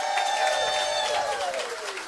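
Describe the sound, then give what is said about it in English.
Crowd applause and cheering for Ole Miss Rebels head coach Lane Kiffin at the historic Oxford Square, a continuous wash of clapping mixed with raised voices that eases off slightly toward the end. “Y'all give it up. Rebel head coach Lane Kiffin's in the house.”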